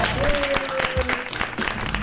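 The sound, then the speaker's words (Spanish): Audience applause, a brief burst of scattered, crisp clapping over about two seconds at a fairly even loudness. “Es zona Sarasa, el aplauso. Bravo.”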